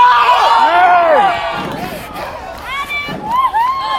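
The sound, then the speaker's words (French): A crowd cheers and acclaims someone with loud, overlapping shouts and calls whose voices swoop up and down, forming a continuous lively din. “Et de plus en plus de monde, une foule, les gens qui t'acclament.”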